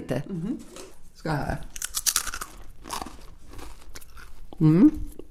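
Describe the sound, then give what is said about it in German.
Crisp rye crispbread crunching as it is bitten and chewed: a few sharp, brittle crackling bursts, fairly faint, with people talking in between. “Ein Knäckebrot soll für mich nach Roggen schmecken. Es soll knusprig sein, wenn man es isst. Man muss es hören können.”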